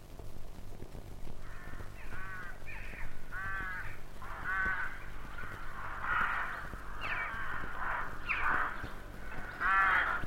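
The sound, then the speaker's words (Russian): Rooks cawing at the arrival of spring: many harsh, raspy calls in an irregular sequence, some overlapping, with no voices. “Грачи открыли весну.”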